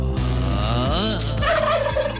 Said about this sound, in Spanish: Ay, el pavo, oiga, le gusta el pavo.